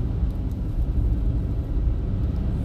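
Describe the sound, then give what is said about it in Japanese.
Low, steady engine and road rumble from a car driving slowly, at about 30 km/h, with careful steering over a road that appears frozen. The droning noise stays even and continuous throughout, with no voices. “ちょっと慎重に慎重にハンドルを切っていきますちょっとスピードを落としてほら30キロ今現在30キロで走行しています”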